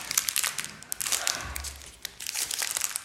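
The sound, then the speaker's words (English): Crinkling and tearing of the foil wrapper as a Bowman 2023 trading card pack is opened: soft, scratchy rustles in irregular bursts, quiet overall. “So open up the pack all the way.”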